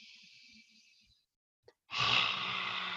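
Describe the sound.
A lion's breath exercise: a breathy hiss, a short silence, then a forceful, loud exhale pushed out through the mouth that holds steady to the end.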